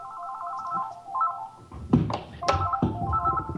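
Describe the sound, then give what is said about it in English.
A telephone rings with a warbling electronic trill in repeated short bursts, broken midway by a few dull thumps before the ringing returns. “Ring, ring. Phone.”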